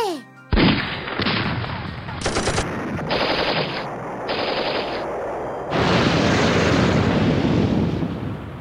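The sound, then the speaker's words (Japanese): Rapid automatic gunfire from a volley fired on command, arriving as several loud, dense bursts separated by brief gaps and then merging into a longer sustained roar of shots. “おーい、構えて、撃て！”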